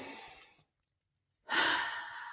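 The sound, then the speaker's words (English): A deep breath taken as two long, airy breath sounds, loud and close, separated by about a second of silence. “And so I'd like to invite us all to take a deep breath.”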